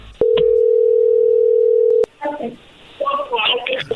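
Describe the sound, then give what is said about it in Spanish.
A steady, loud telephone dial tone holds for about two seconds and cuts off abruptly, followed by people talking. “Ahí se está marcando.”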